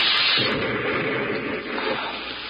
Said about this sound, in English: Hey, it's a firing pin of a grenade. Give me that. Look out!